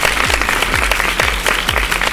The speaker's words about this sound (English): give yourselves a great big round of applause.